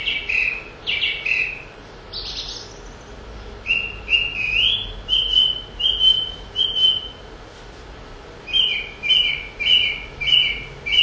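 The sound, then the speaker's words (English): A song thrush sings bright, whistled phrases, repeating each short figure several times before moving to a new one. The repeated notes come in clear rhythmic runs over a soft, steady background hiss. “Song thrush, you can remember, because it does things in pairs, it does parts, it'll repeat a phrase and then it'll move on to another phrase and it'll move on to another phrase and on to another phrase.”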